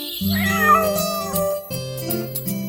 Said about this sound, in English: Look at the naughty kitten.